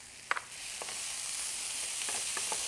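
Fresh fennel leaves and sliced fresh ginger sizzle in a pan as they are stirred, giving a soft, steady hiss broken by a few light scraping clicks. No one speaks.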